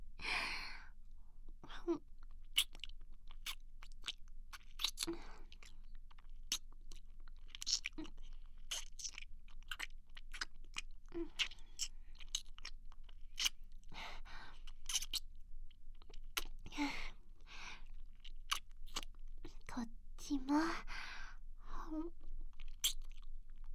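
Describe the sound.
Someone chews sausage with many quiet, crisp crunching and smacking sounds, irregular and closely spaced, with brief pauses between bites.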